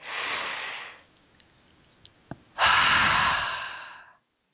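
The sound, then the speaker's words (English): A deep breath drawn in through the nose, then after a short pause a longer, louder breath pushed out through the mouth, both airy and unvoiced, with a couple of faint clicks between them. “taking another couple deep breaths in through the nose and out through the mouth. One more.”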